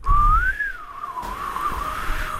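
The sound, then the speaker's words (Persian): A person whistling one long sustained note that rises, dips and wavers in pitch, clear and fairly loud, over a low rumbling background with no talk. “چرا سوت میزنی”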